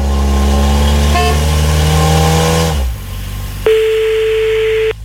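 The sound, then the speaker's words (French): A car engine sound effect hums and revs at a loud, steady pitch, then cuts out abruptly. A short pause follows, then a flat electronic dial tone sounds for about a second. “Avant qu'on appelle, on est censé être dans la voiture. Merde, j'avais un son spécial pour ça.”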